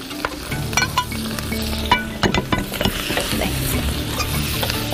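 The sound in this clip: Hot sizzling from a wok as already-fried loach is stir-fried with twice-cooked pork, chili bean paste, fermented black beans, chilies, scallion and ginger, with many irregular clacks and scrapes of the spatula over a continuous crackle.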